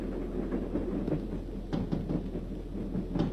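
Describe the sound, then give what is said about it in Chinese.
A military train speeding past at night, a continuous low rumble with irregular knocks and rattles rising and falling slightly in strength. “一列军用火车在夜色中奔驰而过，林彪在车厢里正看书。”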